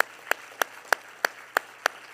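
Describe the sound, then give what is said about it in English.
A church audience clapping hands in unison, a steady run of sharp, evenly spaced claps at a brisk regular tempo, with quiet gaps between beats and no voices. “Clap your hands one more time to Jesus today.”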